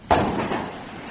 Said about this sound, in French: Le 22 jours. Le 22 jours, ça tire comme ça, là.